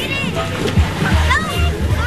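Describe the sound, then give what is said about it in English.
Kids and families splash in the cool water of a public pool during a heat wave. Light splashes mix with children's voices and chatter. “At Cordelia Pool yesterday, kids and families were splashing in the cool water”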